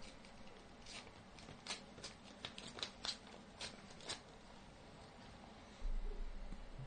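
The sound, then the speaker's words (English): Paper crinkling and tearing as a priority mail envelope is opened, heard as a series of crisp, irregular rustles and snaps with no talk, then a brief low handling thump. “I got an envelope here. It says it's priority. So let me...”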